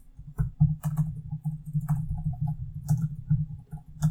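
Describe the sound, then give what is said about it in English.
Typing on a computer keyboard: a quick, uneven run of many light clicking keystrokes over a low steady hum. “You'll see why I'm taking so long to type it out.”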